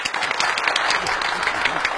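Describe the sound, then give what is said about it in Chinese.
Studio audience applause welcomes a police officer as guest on a talk show, a dense, steady wash of many hands clapping at an even, loud level throughout. “大家鼓掌欢迎。”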